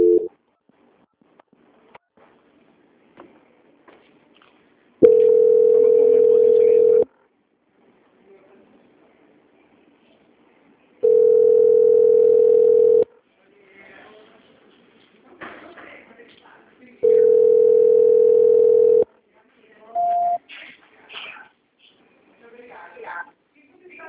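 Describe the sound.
Telephone line tone during a call transfer: three long, steady, mid-pitched beeps of about two seconds each, evenly spaced with quiet gaps and faint handling noise between them.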